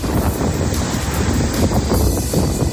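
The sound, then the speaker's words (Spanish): Strong gusting wind during wintry weather in Madrid, with gusts reaching about 70 km/h in the capital, gives a continuous loud roar and buffeting across the microphone. The rumble stays steady, with no voices. “Continúa el tiempo invernal en Madrid y el gran protagonista sigue siendo el fuerte viento.”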